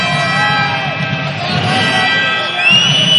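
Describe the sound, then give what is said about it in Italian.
A volleyball crowd murmurs and stirs after a point, a dense, continuous wash of many voices at a fairly loud, even level that swells slightly toward the end. “Sentiamo il pubblico che rumoreggia dietro di noi”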